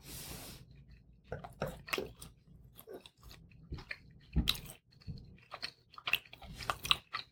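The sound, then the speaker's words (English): Chewing on a bite of filet mignon steak: many soft, wet squishes and chews in an irregular rhythm, fairly close and clear with brief pauses between bites, and no talking. “we're going to go ahead and taste it. The meat, the steak. I'm going to try it with the steak.”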